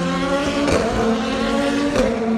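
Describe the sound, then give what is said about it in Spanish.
Race cars roar out of a curve on a circuit where a slow zone follows, a loud, continuous layered engine drone with strong tonal harmonics and a couple of brief swells. “Los coches salían de la curva acelerando y se encontraban el cartel de la slow zone, lo que les obligaba a frenar en seco.”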